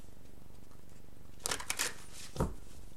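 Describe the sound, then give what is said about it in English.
Tarot cards being shuffled by hand: a few soft, crisp riffling bursts rise briefly above a steady background hiss. The whole passage stays quiet. “sorry, I just feel like the cards need to be shuffled more.”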